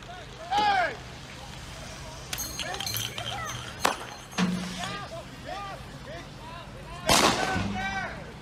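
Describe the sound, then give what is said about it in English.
AR-15 rifle gunfire aimed at police: several sharp, loud cracks at irregular intervals over a noisy background full of chirping, arching tones. “That would be the sound of an AR-15 being fired at police.”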